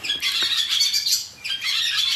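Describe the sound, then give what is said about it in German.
Barn swallows calling at daybreak around farm buildings such as cowsheds, a steady stream of bright, high twittering chirps that overlap continuously throughout with no voices. “Ich glaube, das sind die Rauchschwalben, die jetzt so ein Herz machen.”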